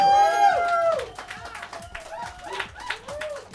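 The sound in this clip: Audience applause welcoming a featured guest onto a show: dense, steady clapping runs throughout, mixed with tonal cheering voices.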